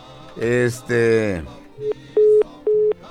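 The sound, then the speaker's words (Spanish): Telephone line tone after a dropped call on a phone-in: a few flat, steady beeps follow a man's voice, level and moderately loud with short gaps between them. “Ándale, se le cortó la llamada, parece.”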